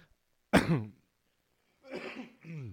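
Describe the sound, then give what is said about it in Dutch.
A person clears a throat that has something caught in it. One sharp, loud burst comes first. After a pause, two rougher voiced rasps follow. “Verskoon my, ek het nou hier ding in my keel.”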